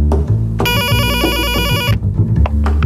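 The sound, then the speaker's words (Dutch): A doorbell rings at a writer's home as an electronic chime with a bright, repeating melodic pattern lasting a little over a second, over a low background and some brief knocks and clatter. “belt krant aan bij schrijver Annemarieke Samson”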